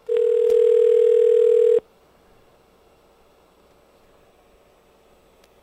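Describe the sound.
A telephone dial tone heard while dialing out on a line through 9: a loud, steady, unbroken tone for about two seconds that then cuts off to near silence.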